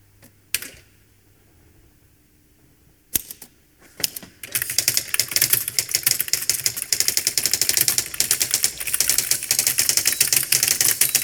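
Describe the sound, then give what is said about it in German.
Fast, hard typing hammering on letter keys: a few isolated sharp knocks at first, then a dense, loud, rapid stream of strikes that keeps going without pause. “Sie schreiben so schnell. Sie hacken ja richtig auf die Buchstaben ein.”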